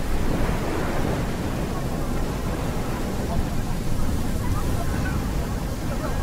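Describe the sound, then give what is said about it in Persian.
A strange, strong wind rushes in a loud, unbroken roar, dense and steady from start to finish with no distinct gusts. “این باد عجیب داره از کجا میاد؟”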